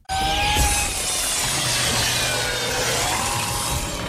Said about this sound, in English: now that I know it's a saw, play it again, please